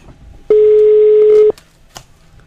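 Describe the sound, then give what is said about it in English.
A telephone tone sounds as a call is dialed through a studio desk: one steady, clear tone lasting about a second, alone, with only faint background noise around it. “I'm dialing it for you. I don't want you to do anything. Just give me the... It's dialing it. It's through the desk.”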